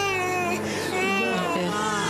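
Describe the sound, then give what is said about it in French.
A baby girl crying for her mother: a continuous, high, strained wail with a slightly wavering pitch, loud and sustained for the whole moment. “Et quand même là, elle pleure pour sa maman.”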